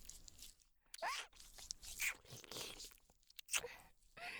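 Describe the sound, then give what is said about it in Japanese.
Close-miked ASMR mouth noises imitate nibbling and eating an ear. Soft wet clicks, smacks and crackly crunches come in irregular bursts separated by near-silent gaps, all quiet. “じゃあお耳食べてあげるね。”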